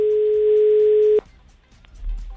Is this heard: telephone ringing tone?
yes